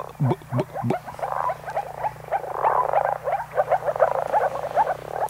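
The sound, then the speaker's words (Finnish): Moor frogs give their soft bubbling call, a few low gulping notes at first and then a long run of rapid, overlapping burbling pulses, moderately loud and continuous with no voices. “Tämä oli ihan pakko kaivaa, kun mainitsit hyvä tuon viitasammakon äänen. Että se varmaan monelle kuuntelijalle ei ole ihan välttämättä niin tuttu. Joo, se on nimenomaan tämä pulputtava ääni.”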